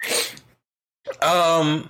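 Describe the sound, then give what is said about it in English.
A single sharp, breathy sneeze, followed after a short silence by a brief voiced sound from a person. “Almost an hour into recording, Sneeze finally came out.”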